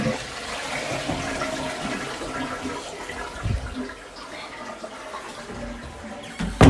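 A toilet flushes with a steady rush of water that runs throughout, ending in a louder gurgling burst.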